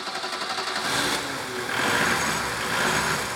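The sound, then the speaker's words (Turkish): A car engine starting and running: rhythmic pulsing at first, then a steadier, somewhat louder mechanical hum that holds to the end. “En azından artık rahatlayabilirim. Araba çalışıyor.”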